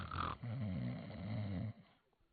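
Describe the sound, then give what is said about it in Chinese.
A person snores in one long, rasping, low drawn-out breath. The snore is fairly faint and fades into quiet at the end. “姚琪惊醒了，可他没睁眼，他照旧打呼噜。”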